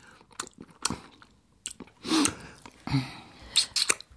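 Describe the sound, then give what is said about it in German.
Crunchy chewing and biting as people eat a meal together. Short, uneven bursts of mouth noise come and go with quiet gaps between them. “Und dann essen wir zusammen. Wir essen ohne den Doktor Unmöglich.”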